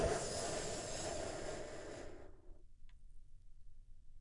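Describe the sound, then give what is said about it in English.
A slow, deep breath in drawn during a guided relaxation exercise, heard as a soft, airy hiss lasting a couple of seconds before it fades into quiet. “And we begin by taking a big, deep, healing breath all together.”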